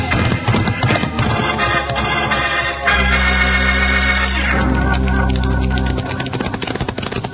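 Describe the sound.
Ridden horses' hooves clip-clop rapidly and continuously in a Western drama, a loud, busy patter over a dense, steady tonal backdrop for about seven seconds.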